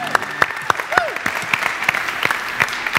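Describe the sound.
An audience at a church event applauds the show's co-host with a brisk, scattered patter of many hands clapping, fairly loud and steady throughout.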